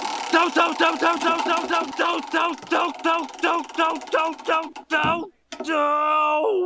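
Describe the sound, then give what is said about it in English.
A prize wheel sound effect: rapid, evenly spaced tonal clicks that slow toward the end, followed by a sustained bell-like tone. “So let's bring it out and give it a spin to see which season we're in.”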